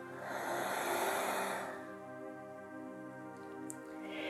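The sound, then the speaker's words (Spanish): A deep breath, in through the nose and out through the mouth, is heard as a soft, airy rush lasting under two seconds. Afterwards a gentle sustained musical tone continues alone. “Inhala profundo por tu nariz. por tu boca exhala.”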